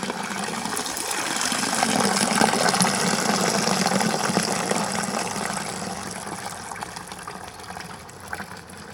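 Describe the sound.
Water from a town square fountain rushes and splashes in a steady, continuous wash of sound that stays fairly loud and even throughout.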